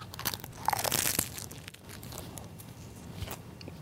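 Crisp crunching of teeth biting into a popiah snack with a crispy skin and tomato filling, many brittle cracks packed densely at the start and then continuing more sparsely.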